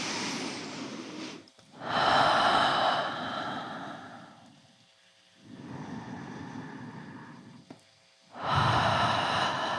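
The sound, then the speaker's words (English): Slow, deep breaths during a guided meditation: long airy inhales and exhales that swell and fade in turn, several drawn-out breaths separated by brief quiet gaps, with no voice. “I want to keep releasing, so I invite us a few more breaths.”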